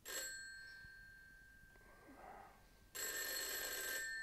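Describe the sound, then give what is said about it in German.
A telephone rings at midnight with a bright, metallic bell tone. A short burst of ringing comes at the start, then a quiet stretch, and a longer, louder ring follows near the end. “Mr. Nuttings Schlaf schon um Mitternacht gestört, als sich das Telefon abermals hören ließ”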